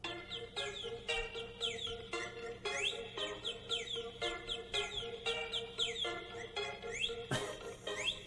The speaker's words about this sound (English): That's a very festive birdie. I always save the annoying ones for these emergency situations.